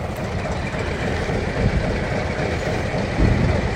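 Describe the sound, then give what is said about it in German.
Continuous rumble and clatter from an old, small blue diesel locomotive pulling open-sided wagons styled after about 1900 on a miniature railway through a park, a dense and steady sound with no voices. “Es ist eine alte Diesellok und dahinter sind Waggons, die sind offen auf der Seite.”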